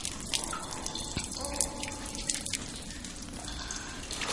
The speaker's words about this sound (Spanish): Un líquido cae sobre ella